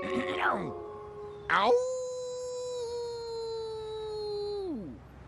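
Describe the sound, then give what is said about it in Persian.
A person imitates a dog calling out at dawn with voiced howls. One short falling cry is followed by one long, steady, drawn-out wail that drops in pitch at the end. “پارس های دم صبح یه روش غریزی جهانیه که با اون هاپوهای سراسر جهان با هم دیگه ارتباط برقرار میکنن. من میخوام با این روش اون گم شده رو پیدا کنم.”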